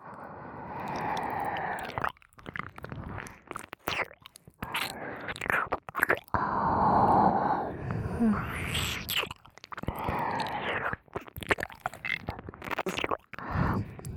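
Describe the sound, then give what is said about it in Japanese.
Wet ear-licking sounds: a steady run of many soft smacks, slurps and tongue clicks mixed with breathy noise, fairly quiet and continuous from start to finish. “いかがでございます？私の耳なめは。”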